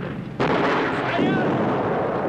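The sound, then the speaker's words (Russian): An artillery shell explodes nearby in a wartime radio drama: an abrupt loud blast, then a sustained roaring rumble that stays loud to the end. “Рядом взрывается снаряд.”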